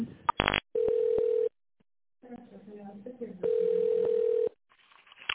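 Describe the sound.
A telephone ringback tone plays while a business call is transferred to another department: two steady mid-pitched tone bursts separated by a gap, preceded by a short burst of rapid tones and with a brief stretch of other sound between.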